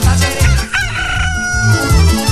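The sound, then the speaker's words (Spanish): A rooster crows loudly in the early morning. The strained, harmonic call carries through the whole stretch with no talk over it. “El gallo ya cantó temprano.”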